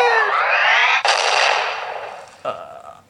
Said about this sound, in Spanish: Vamos a hacerlo con clase. Una bomba. Ya, pues corre. 10 segundos.